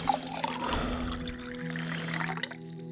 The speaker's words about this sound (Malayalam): എസ്തർ പ്രകാശിനെ പതുക്കെ പിടിച്ചെണീപ്പിച്ച് കട്ടിലിലിരുത്തി ഗ്ലാസ്സിൽ വെള്ളമെടുത്ത് നൽകി